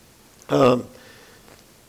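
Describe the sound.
A single short, voiced throat clearing from someone with a frog in the throat. It is loud and abrupt, then followed by near quiet before a sharp new sound begins at the very end.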